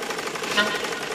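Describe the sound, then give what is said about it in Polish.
A home sewing machine, used for mending and altering clothes, runs in a fast, steady mechanical rattle. The dense, even chatter of rapid stitching strokes holds a constant level throughout. “Lubiłam dźwięk maszyny do szycia mojego tatusia.”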